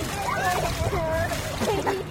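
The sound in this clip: Water splashing as a young child plays at an artificial urban beach, soft splatters running throughout under children's voices.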